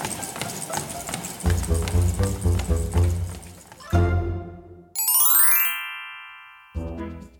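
Horse hooves clip-clop in a quick, steady rhythm as Grandpa rides, with many sharp hits for about four seconds, then bright ringing tones and a short closing burst.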